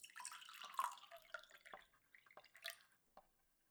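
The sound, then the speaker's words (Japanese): Freshly brewed coffee being poured into a cup gives quiet, irregular trickling and dripping splashes that thin out and fade toward the end. “あとは 出来上がったコーヒーをカップに注いで、”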